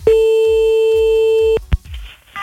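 A telephone line tone during a callback, heard as one steady, sustained beep lasting about one and a half seconds. It is cut off by a sharp click, followed by faint noise and a brief further sound.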